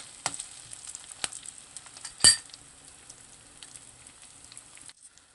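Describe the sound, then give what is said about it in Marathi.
Onions sizzle as they are sautéed in a pan: a steady, bright frying hiss broken by a few sharp stirring scrapes and clinks, the loudest near the middle, before the sizzle fades quieter at the end. “व्यवस्थित परतून घेऊया।”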